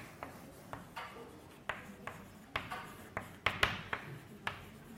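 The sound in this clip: Writing on a board during a math lecture: many short, scratchy strokes and taps in an irregular quick rhythm, fairly faint, with no talking.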